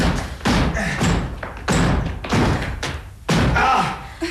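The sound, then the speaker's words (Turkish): Heavy thuds of a door being forced open and broken down, a series of loud, dull blows at a fairly steady pace, each a short burst of impact noise. “Sanırım kapıyı kırmamız gerekli.”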